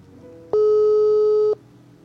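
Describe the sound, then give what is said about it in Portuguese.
A telephone ringback tone sounds while a call is placed: a single steady mid-pitched tone lasting about one second, clean and loud over a faint background hum. “Vamos ver se o senhor consegue falar com ele. Vamos ver. Está chamando.”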